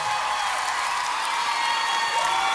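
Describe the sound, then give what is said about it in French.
A concert audience applauds and cheers for a singer on stage, forming a steady, even wash of clapping and crowd noise without a break. “Du bruit pour Marguerite, s'il vous plaît. Du bruit pour Elena, du bruit, du bruit.”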